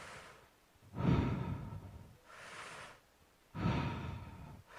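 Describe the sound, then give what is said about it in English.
Deep cyclical breathing in and out through the mouth, with no pauses between breaths. Heavy, rushing breaths alternate with softer ones in a steady rhythm, each lasting about a second. “you breathe deeply into your body, through your mouth, let it out fully, and then keep doing it. You don't pause. It's a cyclical breath”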